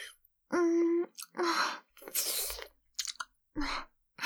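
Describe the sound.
Gentle ASMR nibbling on a soft earlobe: several wet, crunchy chewing bursts mixed with breathy hums and moans from a close, quiet voice.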